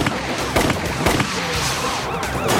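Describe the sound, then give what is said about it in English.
Gunfire from a shootout between a bank robber and police officers at a roadblock. Several loud, sharp shots crack over a dense, continuous noisy background. “Suddenly, he opens fire. As he bursts through the roadblock, officers on foot shoot back.”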